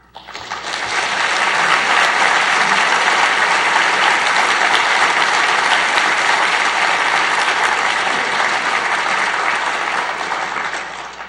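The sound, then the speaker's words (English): Loud, steady applause fills the room as an audience welcomes a speaker to a lecture at the Vancouver Institute, a dense wash of clapping that holds evenly for over ten seconds and eases slightly at the end. “The topic of tonight's lecture is, What is America? Please welcome our speaker.”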